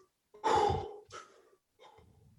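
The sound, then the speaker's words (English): Forceful breathing demonstrating holotropic breathwork: a strong, rushing breath followed by two shorter, softer breaths, with no speech. “the forcefulness of the inhale and the forcefulness of the exhale is holotropic breathing. Like, so that's forced in, forced out, forced in, forced out.”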